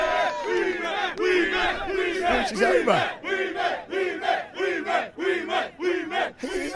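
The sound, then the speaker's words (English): A wrestling arena crowd roars for Wee Man: a loud, dense cheer of many voices that swells, then settles into a steady rhythmic chant. “But let's hear the reaction for arguably one of the biggest pops of the night. Wee Man, ladies and gentlemen. Wee Man.”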